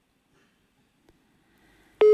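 A telephone busy signal sounds on a call-in line after the caller hung up: near silence with faint low noise gives way, near the end, to a loud, steady, abrupt tone.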